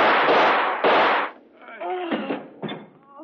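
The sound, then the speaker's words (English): Gunshots ring out in a radio drama aboard a steamship: two heavy, booming blasts with noisy tails, followed by voices talking. “hatchet, sir, and threw it. We had to shoot, sir.”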